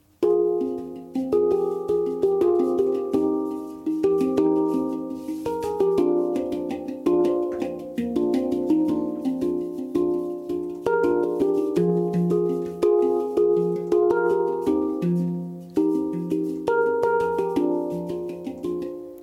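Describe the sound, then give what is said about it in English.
A Hang instrument plays melodies and chords. Many struck metallic notes ring out with soft, sustained resonance, overlapping into warm harmonies at a moderate, even pace, with no talking. “Do you want to talk us through a few different styles that you can get on the Hang instrument? Yeah, you can basically do melodies and chords sounding like this.”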